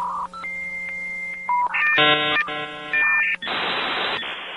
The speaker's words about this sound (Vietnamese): Sau vài tiếng tút tút là một giọng nữ quen thuộc.